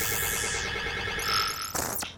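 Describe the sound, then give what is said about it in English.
Synthetic sci-fi scanning effect for a robot's x-ray scan: layered electronic tones with a high, falling whine and steady buzzing pulses, ending in a sharp sweeping burst, with no voices. “Now, I'll scan you with my x-rays”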